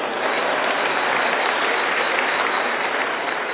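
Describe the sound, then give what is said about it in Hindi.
An audience claps as one steady, unbroken patter of many hands. The level stays even throughout, with no single claps standing out. “अच्छा हमने ताली क्यों बजाई?”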